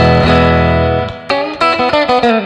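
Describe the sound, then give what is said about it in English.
Electric guitar on the front lipstick pickup of a silver metalflake Danelectro DC '59 60th Anniversary NOS+. A held chord rings and fades, followed by a series of sharp, choppy strummed chords. “these pickups here, this is the sound of the front pickup here.”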